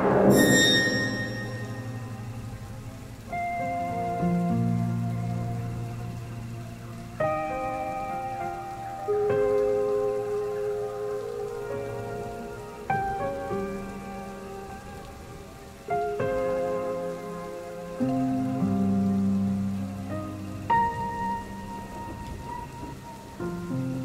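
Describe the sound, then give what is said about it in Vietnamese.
Rain pours down steadily outside as a continuous wash of noise, with music playing clearly over it throughout, its notes changing every few seconds. “Bên ngoài, mưa vẫn đang trút từng cơn.”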